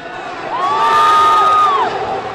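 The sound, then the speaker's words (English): Crowd roaring and cheering in a rodeo arena as the chutes open for bull riding, a loud swell of voices with a high whoop riding over it before easing off. “Music blares in the arena and the crowd roars as the chutes open for one of the most popular events, bull riding.”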